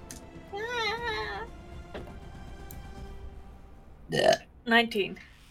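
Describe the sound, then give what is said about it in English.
A burp during a tabletop role-playing game comes as a couple of short, rough, gurgling bursts near the end, following some quieter speech earlier. “And so will the burp. For 7 damage.”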